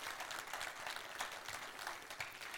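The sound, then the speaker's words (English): Church audience applauding during a service, a dense, even patter of many hands clapping together, held at a faint, steady level throughout. “And so let's just put our hands together. We welcome all of you joining us online right now.”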